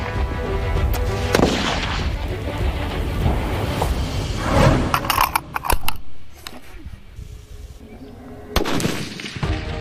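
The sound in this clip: Rifle gunshots at a shooting training range crack out as a few sharp, loud bangs over a dense, steady wash of background noise, with a burst of rapid reports in the middle.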